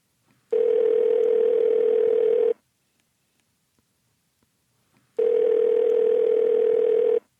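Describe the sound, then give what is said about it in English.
Telephone tone while placing a call: two identical steady electronic tones, each about two seconds long, separated by a pause of silence, with no voices. “And why don't we call Stephen? Yeah, he's a freak. Let's call him.”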